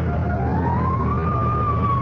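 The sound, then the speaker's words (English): A fire engine siren wails near a sanitarium driveway. A single steady tone slowly climbs in pitch, then holds level over a constant low engine rumble. “Fire engine?”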